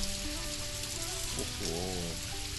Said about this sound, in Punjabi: ਹੁਣ ਮੈਂ ਘਰ ਕਿਵੇਂ ਜਾਵਾਂਗਾ, ਇਹ ਬਾਰਿਸ਼ ਫਿਰ ਸ਼ੁਰੂ ਹੋ ਗਈ ਹੈ।